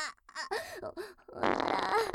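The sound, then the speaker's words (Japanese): A loud, sputtering, fart-like rasp lasts about a second, following a few short moaning vocal sounds. “おなら出ちゃう。汚い音で、おなら、お漏らししちゃう。”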